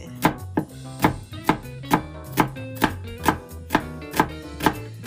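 Knife thinly slicing a peeled onion for onion gratin soup: many steady, evenly spaced chops hitting the cutting board in a brisk, regular rhythm, fairly loud and with no talk over them.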